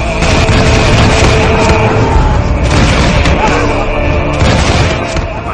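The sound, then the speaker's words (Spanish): Arquebus volley gunfire rages in a battle at Jemmingen in Flanders: a continuous loud roar of overlapping shots and booms with no clear gaps, sustained throughout and tapering slightly at the end. “que hasta los arcabuceros desmontaron para unirse a nosotros, disparando con todo lo que tenían.”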